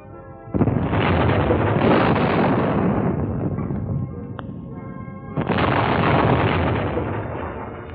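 Naval gunfire and explosions in a sea battle against destroyers: two heavy booming blasts, each opening a long, dense roaring rumble that dips between them and stays loud throughout.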